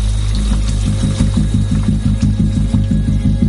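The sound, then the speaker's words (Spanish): Shower water runs in a motel bathroom, a steady hiss under a low tone that pulses in a quick, even rhythm. “Después, se está dando una ducha en el motel.”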